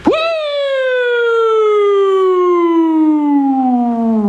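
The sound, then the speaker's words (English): A voice imitates an old, gentle police car siren, holding one long, smooth, loud wail that slowly glides downward in pitch. “Remember the cops would sneak up behind you? They had that nice soothing siren. They'd get in behind you and be like,”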